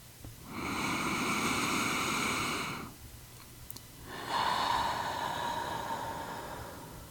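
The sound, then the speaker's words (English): Slow, deep breathing during a calming exercise: two long, airy breaths, each a soft rushing swell lasting a few seconds, separated by a short pause, fairly faint and with no talk. “When you take deeper breaths, your body sends calming signals to your brain. Take a moment to breathe with me now.”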